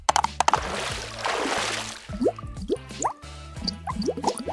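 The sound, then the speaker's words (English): Splashing as a metal character swims across a pond: a churning wash of water, then a run of plops and drips with short rising tones. “If Lucy Wow can face her fears, so can I. I will swim across the pond.”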